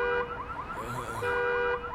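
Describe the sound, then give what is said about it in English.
A car alarm blares from a red car, cycling through rapid warbling electronic tones in a repeating up-and-down sweep. It stays loud and steady throughout, with no talk. “And then there's a blissful moment of silence just before the car alarm.”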